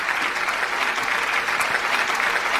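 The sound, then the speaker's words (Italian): Audience applause for a performer arriving at an evening event: dense, steady clapping that holds at an even, fairly loud level for the whole stretch, with no voices over it. “Quindi facciamo un applauso per Francesco Coppola”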